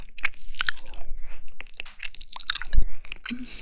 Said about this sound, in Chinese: 对啊，我正吃着呢，在吃凉拌猪耳朵。